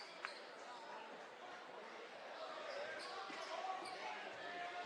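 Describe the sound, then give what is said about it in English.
A basketball bouncing on the court before a free throw: a few dull thumps under a steady crowd murmur, with a commentator talking over them. “Bounces the ball a couple of times, spins it in his hand. He's going to bounce it one more time and then releases.”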